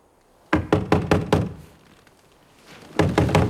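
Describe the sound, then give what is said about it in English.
Knuckles rapping on a car's passenger window glass beside a parked car stopped by police: five quick, hollow knocks, a pause, then three more knocks. “One of them leans over the passenger window and raps at the glass.”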